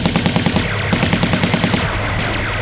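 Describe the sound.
Rapid automatic gunfire in a science-fiction battle with alien aggressors: loud, sharp shots fired in quick repeated bursts, with many closely spaced cracks and no voices.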